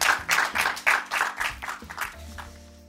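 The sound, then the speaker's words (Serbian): Audience applause at an evening event, heard as a run of crisp clapping bursts in a quick, even rhythm that gradually thin out and fade to quiet. “Aplauz još jedan za našu Ivanku.”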